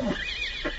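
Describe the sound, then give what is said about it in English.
Horses neighing loudly: a brief whinny with tonal bursts at the start and end, heard alone. “Oh, those stupid horses! I suppose that noise was ordained by heaven to assist my examination of the patient.”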